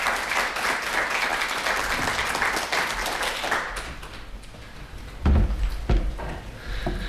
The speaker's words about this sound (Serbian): pre svega da pozdravimo našeg Gojka Božovića jednim aplauzom.